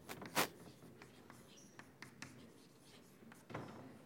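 Faint scratching of a pen as a mathematical limit is written by hand: light, scattered strokes, with one louder tap near the start.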